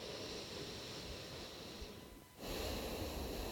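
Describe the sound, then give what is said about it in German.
Breathing in and out through one nostril with the other held shut: a faint hissing inhale, a brief pause, then a slightly louder, rushing exhale, with no talking. “Und jetzt hältst du mal das rechte Nasenloch zu und atmest nur links ein und aus.”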